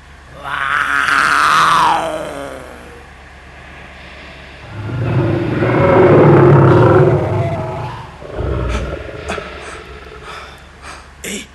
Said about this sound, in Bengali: শুনো শুনো বাঘ, হ্যাঁ বাঘ এইটি পাখারে কোটি অছি।